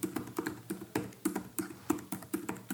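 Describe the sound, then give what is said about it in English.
Typing on a computer keyboard, a steady run of many fairly even clacking keystrokes at a brisk, regular pace, moderately soft and with no voices. “So let's you and I buy one. I'm going to type through.”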